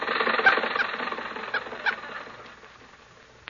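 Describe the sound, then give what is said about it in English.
A car engine runs steadily while the car is driving, giving a dense rattling hum with a few small bumps. It fades gradually toward the end, and no one speaks. “Jack and Mary are on their way to the studio, and Rochester is driving.”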